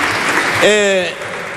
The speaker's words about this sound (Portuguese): Aplausos da bancada do PSD.